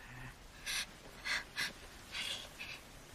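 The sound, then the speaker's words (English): A man taking breaths, heard as a few short, faint, airy bursts of breathing spaced unevenly over quiet background hiss, with no talking. “He takes a breath.”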